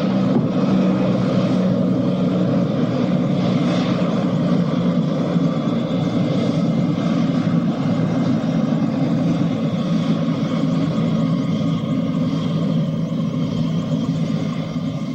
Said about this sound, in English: The helicopter lands just beyond their hiding place.